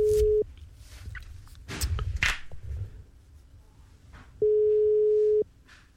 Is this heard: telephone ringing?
yes